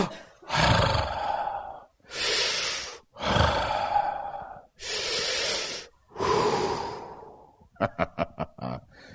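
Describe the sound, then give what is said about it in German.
A person takes deep breaths through an open mouth during a prayer session: five long, loud, rushing breaths with short pauses between, then a rapid run of short puffs. “Ich atme dich jetzt ein, ganz tief, so richtig, mit offenem Mund, so ganz tiefen Lungenzug, so.”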